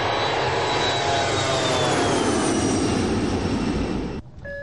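A jet airplane takes off from the runway with a loud, steady roar and a thin high whine, sustained for about four seconds before cutting off abruptly to quieter, steady tones.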